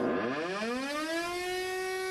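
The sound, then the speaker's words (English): An air raid siren of the kind sounded over wartime Düsseldorf in the 1940s, its wailing tone sweeping upward in pitch, then holding a loud, steady, harmonic-rich note. “This was the soundtrack to Gretel's childhood. In October 1944 alone, the sirens rang out 112 times.”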